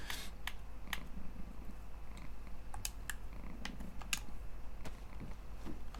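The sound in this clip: A cat lying in front of a computer monitor purrs softly and steadily, a low continuous rumble broken by scattered sharp little clicks.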